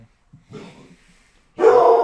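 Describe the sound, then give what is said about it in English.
Dex the dog whines in the background with a few faint, short whimpers, followed by a sudden louder, longer whining burst at the end. “Sure. It's that's just my dog Dex in the background.”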